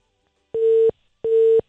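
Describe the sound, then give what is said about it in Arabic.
Two identical steady mid-pitched beeps from a dropped telephone call. Each tone lasts about a third of a second, with a short silent gap between them and no voices. “قطع الخط للأسف، احنا كانت عندنا مشكلة في ان احنا نحاول نتصل فيها”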